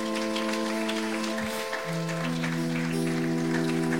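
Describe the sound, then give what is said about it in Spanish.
A church audience clapping in praise during a service: a steady, dense patter of applause over sustained keyboard chords that shift to a new harmony partway through. “Dale un aplauso al Señor, hermano.”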